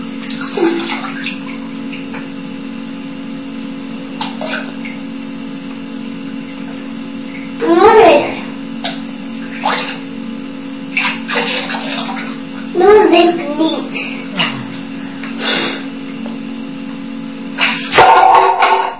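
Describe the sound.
Water sloshing and splashing in a bathtub as a child is bathed, with scattered bursts of splashing over a steady low hum, and a child and an adult talking at intervals.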